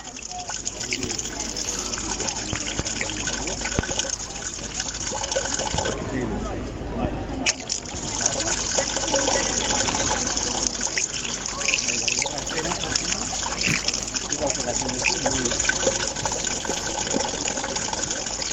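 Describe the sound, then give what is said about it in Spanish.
A street fountain runs steadily in a neighbourhood of Zarautz beside a school, a continuous splashing trickle with voices of children and adults in the background. “Esto es un sonido de calle, un sonido que parece que es como de fuente.”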